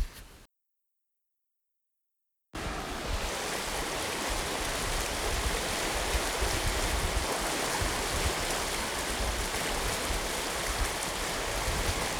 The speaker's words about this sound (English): So that's the sound of Sager Wash flowing in a flood situation here. Apparently it rained out here quite a bit last night.